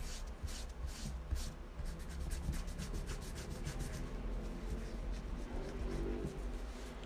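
An eraser rubs out pencil answers on paper in quick, scratchy back-and-forth strokes, a soft steady rasp that keeps going without talk.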